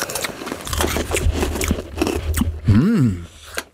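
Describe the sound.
Hard, pressed freeze-dried raspberries are bitten and chewed, giving many dry, crackling crunches in quick succession, followed by a short hummed voice as the chewing continues.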